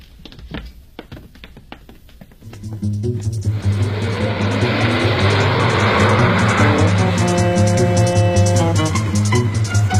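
A car pulls away carrying detainees. Scattered clicks and knocks come first, then a loud engine roar swells in and holds steady, with a droning tone running under it toward the end and no voices.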